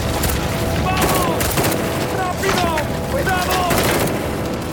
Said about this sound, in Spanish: ¡Nos están disparando!